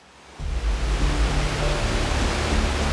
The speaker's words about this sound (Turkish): Devasa bir şelale var. Hemen şurada.